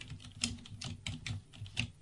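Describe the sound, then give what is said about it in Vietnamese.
Slow, hesitant typing on a computer keyboard, with fingers slipping onto neighboring keys: a few distinct key clicks spaced unevenly over two seconds, plain and unaccompanied by voices. “vừa nhìn lên màn hình, vừa nhìn xuống bàn phím, gõ chữ A, nhưng ngón tay trượt qua chữ S. Gõ chữ O, nhưng ngón tay trượt qua chữ B.”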